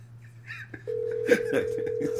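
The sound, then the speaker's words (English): Telephone ringback tone while a caller waits for someone to answer. A low hum comes first, then a steady, unbroken tone that continues to the end. “He's probably debating if he should pick up.”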